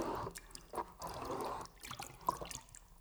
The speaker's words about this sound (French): Zélie remplit sa cruche d'eau.